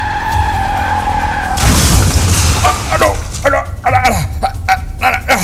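A car's tyres screech in a sustained skid, then a loud crash as it hits a traffic-light pole, followed by many short clattering bursts.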